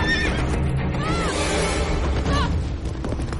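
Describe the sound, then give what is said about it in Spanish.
A horse whinnies loudly as its rider reins it in hard at a fallen tree trunk during a chase through a forest. A couple of shrill, wavering neighs rise and fall over a dense, continuous rumbling noise. “Un tronco caído la obliga a frenar al caballo y cae al suelo.”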